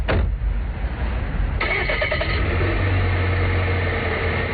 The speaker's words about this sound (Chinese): 金振云又开车准备去巡护